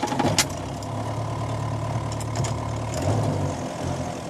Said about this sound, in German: Lange fahren wir dorthin auf ausgefahrenen Wegen, Schotterstraßen, hitzezerrissenen Lehmtrassen